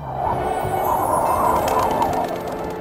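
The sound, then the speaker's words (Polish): A rooster crows in a long, sustained call that stays loud and steady from start to end, with no talk over it. “Doskonale Państwo znają ten głos. Kogut jak się budzi, a nawet jeszcze zanim będzie świt, już pieje.”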